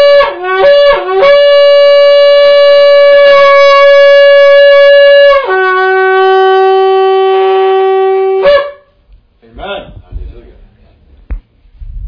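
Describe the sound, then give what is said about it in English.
A trumpet sounded for Jubilee: a few short opening blasts, then a loud sustained bright note that steps down to a lower held tone before cutting off, followed by brief faint sounds. “Jubilee. This is the sound of Jubilee. This trumpet.”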